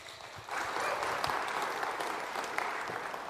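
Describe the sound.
Applause from a church audience welcoming a guest speaker to a morning service: many hands clapping in a dense, even clatter that begins after a short quiet moment and holds steady to the end.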